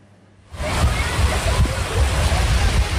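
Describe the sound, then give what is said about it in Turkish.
Rushing, sloshing floodwater on roads in Edirne where vehicles were stranded after heavy rain and hail. The steady churning water noise starts abruptly after half a second and stays loud to the end. “Göle dönen yollarda bazı araçlar mahsur kaldı.”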